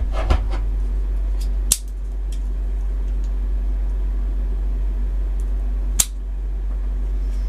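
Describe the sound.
A cigar cutter snips a cigar: two sharp, crisp clicks several seconds apart, standing out over a steady low hum.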